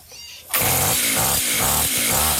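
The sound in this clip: A brush cutter engine being started: after a quiet half second a loud, rough mechanical roar bursts in and carries on with a steady rhythmic pulsing.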